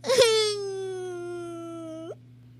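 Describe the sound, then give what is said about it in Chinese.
A little mouse in a children's story cries: a brief sob breaks into one long, drawn-out, high whimpering wail that holds a nearly steady pitch for about two seconds, then cuts off. “小老鼠吓了一跳，委屈的哭了。”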